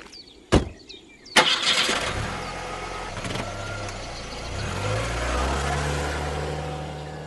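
A car engine starting and driving off: two sharp thuds, then the engine catches and settles into an idle before its pitch climbs as the car pulls away and the sound stays loud.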